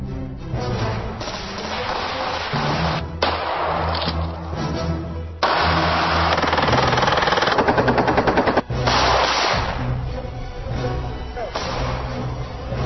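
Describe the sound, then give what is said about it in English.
Gunfire shooting ballistic gelatin, watermelons, cinder blocks and plywood: loud, dense bursts of shots with a fast rapid-fire run partway through, over a continuous backing of music. “They're shooting ballistic gelatin, they're shooting watermelons, they're shooting cinder blocks and plywood.”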